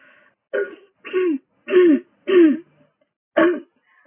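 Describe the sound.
Throat clearing from a person who has recently caught COVID: five rasping, phlegmy bursts with uneven gaps and no speech between them.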